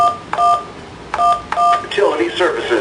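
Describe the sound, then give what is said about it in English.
Telephone keypad tones dial a personal code into an automated phone service: a few short, bright two-note electronic beeps, some pressed in quick pairs, followed by a voice speaking at the end. “Please dial your password or personal code.”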